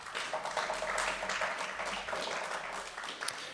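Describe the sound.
Applause from the audience at a live Fête de la musique concert as the musicians on double bass and drums are introduced. The clapping forms a dense, continuous patter that stays fairly faint and even throughout.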